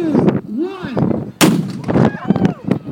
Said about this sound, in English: they said they're gonna start in 20 seconds and 10 seconds. And it's a big cannon, so y'all hold on.